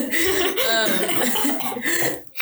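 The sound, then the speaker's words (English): Someone coughs and chokes on air. Rough, harsh coughs and throat clearing repeat loudly through nearly the whole clip, then stop abruptly near the end. “I'm just, like, choking on air. Excuse me.”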